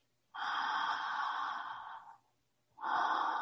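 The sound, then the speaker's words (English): Relaxed, unstrained breathing through an open mouth: one long, airy breath lasting nearly two seconds, a short pause, then the next breath beginning. It sounds soft and even, with no voices. “And then we just open the mouth and we begin to breathe through the mouth.”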